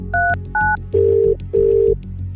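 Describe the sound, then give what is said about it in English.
A telephone dials the reception desk: two short, clean dialing tones are followed by two longer, steady lower ring tones. “With a sigh, she picked up the phone to dial the reception desk.”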